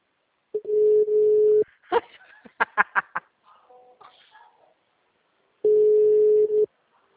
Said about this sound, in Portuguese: O número não responde.